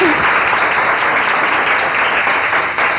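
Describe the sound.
Loud, sustained applause from an audience welcoming a speaker, an even roar of many hands clapping throughout the three seconds with no break.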